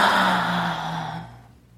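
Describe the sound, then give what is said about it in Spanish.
A deep breath, heard as one long, airy rush of breath that is loud at first and gradually fades away over under two seconds, with no talk. “Respira profundo. Sácalo.”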